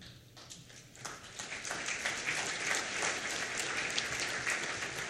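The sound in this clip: Applause marks the election of vice chairpersons and a rapporteur by acclamation at the 13th session of the Permanent Forum on Indigenous Issues. Clapping swells in around the first second, then holds as a dense, steady ovation to the end.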